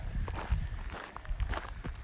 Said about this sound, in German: Ich habe gesehen, hinter uns kommt Jogger. Jogger.